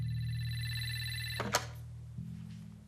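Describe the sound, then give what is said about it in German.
A telephone rings with a steady, bright electronic tone that holds for the full three seconds, broken briefly by a couple of sharp clicks near the middle. “Mein Telefon war offenbar doch nicht defekt.”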